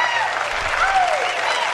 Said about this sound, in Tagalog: Ayan, palakpakan naman natin ang